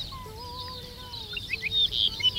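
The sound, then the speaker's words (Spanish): A Dupont's lark sings its titutí call, thin drawn-out whistled notes followed by a flurry of higher, quicker chirps. “ricotí se llama como tal porque es una emulación de la onomatopeya que produce en el canto, el titutí. Sé que realiza en varios momentos. Pues, profesor Juan, mira, está a ver. Está cantando.”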